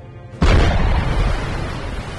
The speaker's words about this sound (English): The harpoon slammed into the vessel directly underneath its anti-ship missile launchers, impacting downward and tearing a large hole in the hull.